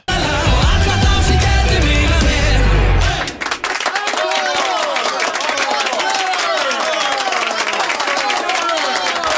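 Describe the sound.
Audience applause with voices over it follows a loud, low, droning opening of about three seconds. The clapping is dense and steady to the end.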